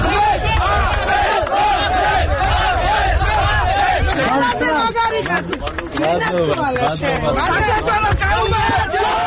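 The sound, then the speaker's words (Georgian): Supporters shout, chant and cheer in a courthouse yard after a judge's ruling, a loud continuous roar of many overlapping voices with rising calls and babble that barely lets up. “ასეთი შეძახილებითა და ოვაციებით შეხვდნენ მოსამართლის გადაწყვეტილებას ნაციონალური მოძრაობისა და აკმამეთ იმამ ყულიევის მხარდამჭერები.”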